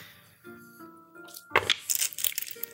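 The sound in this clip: Dice rolled for a stealth check in a tabletop role-playing game clatter in a quick run of sharp clicks and rattles. A soft hum comes before them.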